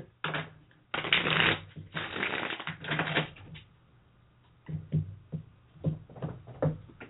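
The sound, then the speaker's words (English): A deck of cards being shuffled during a card reading: crisp, papery riffling bursts, longer and louder early on, then shorter, softer flurries of shuffling. There is no talk. “Sorry for the shuffling sound.”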